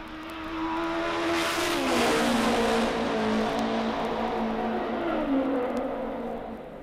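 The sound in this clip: A race car's engine roars on a qualifying lap, driving off the fourth corner of an oval track onto the straightaway. The note is loud and sustained, with its pitch shifting through the run and no voices.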